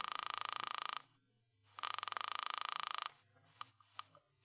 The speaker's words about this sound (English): as you drop a coin into the payphone, dial a number, and wait nervously